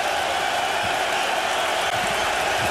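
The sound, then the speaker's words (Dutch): A darts crowd at the Slovak Darts Open cheers a player on during a third-round match, making a dense, steady roar of many voices that holds at an even level throughout. “Het publiek gaat er nog even achter staan.”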